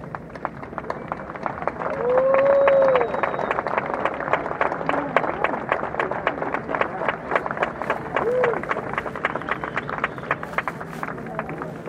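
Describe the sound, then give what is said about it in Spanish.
Audience applause for the artists at the closing of a Cervantino festival concert in San Cristóbal, dense sustained clapping that runs throughout with crowd noise. “Un aplauso para nuestros artistas.”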